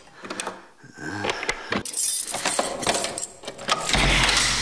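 A key ring jangles and clicks as a monastery cellar door is unlocked with the abbot's key. The metallic clinks and rattles run loud and nearly continuous, building into a dense, noisy scrape near the end.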